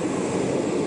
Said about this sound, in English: That's the sound of engines on his jet as his plane leaves the airport in Santiago, Cuba earlier today.